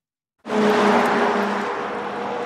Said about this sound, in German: Ein Auto nach dem anderen rauscht an ihnen vorbei. Erlaubt ist hier Tempo 100.